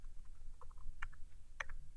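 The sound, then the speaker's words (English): A few faint keystroke clicks from a computer keyboard while typing code in Visual Studio, sparse and irregular, with two sharper taps standing out over a low hum. “I go into Visual Studio and go into a CSS. I could go and type in media and then hit tab,”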